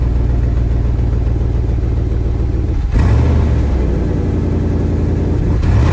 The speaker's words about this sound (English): It's a V8. Yeah. It's gas.